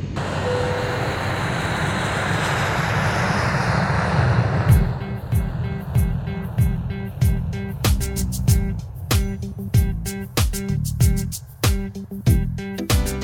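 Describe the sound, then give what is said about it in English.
An airplane engine during takeoff roars loudly and continuously, the sustained noise taking on a regular pulsing texture in its second half. “At this time, we ask that you fasten your seatbelts and increase the volume levels in your system as we perform our demonstration. Thank you for your attention. We will be airborne shortly.”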